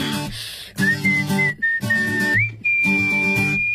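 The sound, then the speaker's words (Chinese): A light, cheerful whistled melody rides over a bouncy pop song. The bright, high whistle moves between sustained notes, with steady beats and backing instruments underneath. “人家还有一段轻快的口哨在这儿呢哈。”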